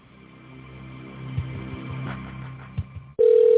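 Telephone line noise carries a few faint clicks while a call is transferred to a secretary, then a loud, steady tone cuts in near the end and holds.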